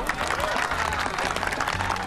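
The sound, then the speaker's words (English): Applause from a crowd of people in fancy dress at a haunted house fundraiser, a dense, steady patter of many hands clapping throughout. “People in fancy dress clap.”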